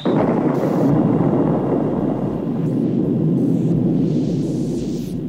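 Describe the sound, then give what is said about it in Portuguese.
A nuclear reactor explodes at the Chernobyl power plant, a loud, dense rumbling roar that starts abruptly and stays heavy and steady through the whole clip, with no voices. “A 1h23 da madrugada de sábado, o chefe da equipe ainda tentou acionar o sistema de segurança. 20 segundos depois, o reator explodiu.”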